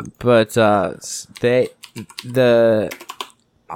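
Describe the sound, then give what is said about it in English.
Computer keyboard typing clicks over voiced speech, with sharp taps most evident in the pauses between speech. “Sorry for the clicking.”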